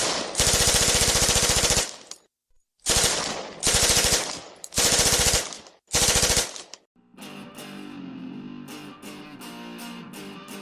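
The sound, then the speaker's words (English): Tommy gun machine-gun fire opens a St. Valentine's Day Massacre themed segment. Several loud, rapid bursts of varying length are separated by short silences, then music takes over for the last few seconds. “We got the Tommy guns in tow. Let's get it.”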